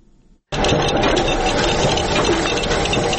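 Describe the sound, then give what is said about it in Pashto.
Printing press machines run in a century-old state printing house, one printing and one cutting paper. After a brief quiet moment, a loud, continuous mechanical clatter starts abruptly and holds steady with a busy rhythmic chatter. “دا د سل کلنې دولتي مطبعې له نهو څخه یوازې د دوه ماشینونو غږ دی چې یوې چاپ کوي او بلې کاغذونه پرې کوي.”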